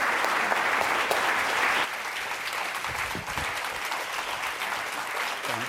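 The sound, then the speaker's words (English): Applause from an audience at a book reading at the Los Angeles Public Library, many hands clapping in a thick continuous patter that eases slightly in loudness partway through and then carries on steadily. “I heard you clapping, which is generous.”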